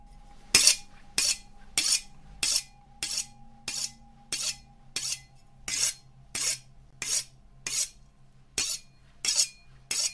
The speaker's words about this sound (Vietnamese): Nó cầm con dao, mài mài vào cái đít bát, phát ra những tiếng ghê rợn.